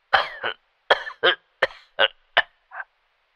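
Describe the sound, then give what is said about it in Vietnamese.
An elderly man's violent coughing fit over the phone: eight harsh, separate coughs in an uneven rhythm, loud and alone, with short pauses between them. “Tiếng ho sặc sụa ở đầu dây bên kia làm cho ông cầu lo lắng.”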